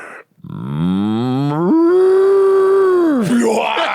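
A person imitates a cow's moo during a contest: one long, loud voiced call that starts low, steps up in pitch, holds steady, then drops away at the end.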